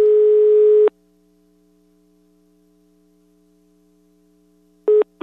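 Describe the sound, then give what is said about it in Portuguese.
Ringing tone of an outgoing telephone call: a steady, mid-pitched tone lasts about a second, then a long silence follows before the next tone starts briefly at the very end. “Pois vamos ligar aqui pra ver. Vai tá chamando aí.”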